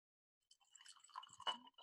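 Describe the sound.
Bullet Bourbon whiskey being poured into a glass, a brief, faint trickle with small splashes and drips that ends in a last drop.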